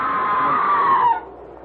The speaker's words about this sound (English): Oh, the scream! There it is again!